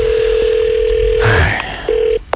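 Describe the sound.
A steady telephone dial tone sounds while a number is being dialed. Muffled handling noise interrupts it midway, then the tone returns briefly before cutting off with a couple of clicks.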